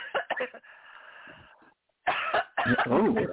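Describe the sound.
Harsh coughing breaks out as a speaker chokes mid-sentence. A quick run of sharp coughs comes first, then a short silence, then two longer rasping bursts.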